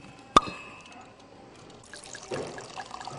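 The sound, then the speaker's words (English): Wine pouring and splashing into a glass, faint overall: a single sharp tick early on, then a soft liquid trickle and splash that builds toward the end. “the musical gurgle of wine splashing into a glass means one thing.”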